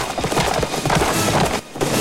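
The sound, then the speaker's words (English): Horses galloping along railway tracks in pursuit of a moving train: a dense, loud, continuous drumming of hooves that dips briefly near the end before resuming. “Doc and Marty chase the train on horseback. They take to the tracks behind the train.”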